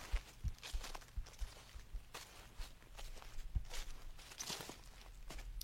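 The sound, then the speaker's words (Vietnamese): Soft, cautious footsteps follow behind someone, a faint series of quiet, uneven steps that continues throughout with no voices. “Tiếng bước chân vô cùng nhỏ, lại nhịp bước thận trọng, lão biết ngay đây là kẻ không tầm thường.”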